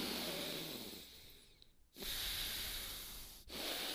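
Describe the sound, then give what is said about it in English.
A voice imitates one-nostril pranayama breathing with long, hissing nasal breaths, soft and airy, broken by short pauses. “But there's like even pranayama or something. It's where you go. Like you hold one nostril.”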